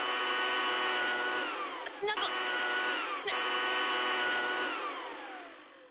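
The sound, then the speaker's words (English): A 200-mile-per-hour cordless leaf blower runs with a steady, loud, high motor whine and strong harmonic tones, dipping briefly twice before tapering off at the end. “Drown her out with a 200-mile-per-hour cordless leaf blower.”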